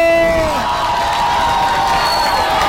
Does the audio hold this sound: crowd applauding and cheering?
yes